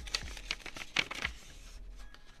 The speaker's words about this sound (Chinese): 那我来仔细检查一下信封里。